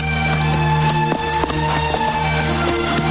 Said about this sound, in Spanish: Continúa cabalgando entre la plantación, resaltando sus cabezas sobre esta.